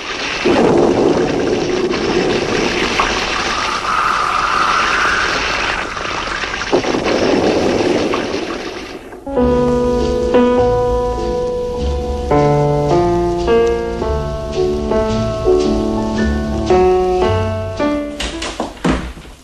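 Storm noise with rain, a dense, loud rush of heavy downpour and wind that fills the first half before giving way to music.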